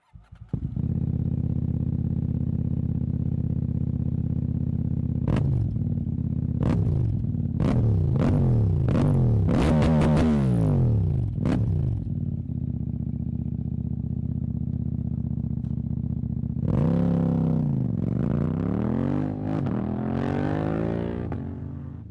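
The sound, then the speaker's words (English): A racing motorcycle of the kind ridden at the Isle of Man TT accelerates away with its quick shifter. The loud engine climbs in pitch again and again, with several sharp cuts between rapid upshifts, then holds a steady drone before another rising sweep. “I could hear the quick shifter when he was setting off.”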